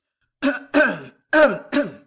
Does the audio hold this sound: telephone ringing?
no